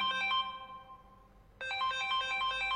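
An incoming call's phone ringtone plays a repeating melodic electronic beeping phrase, fades briefly, then starts again at full level, with no voices.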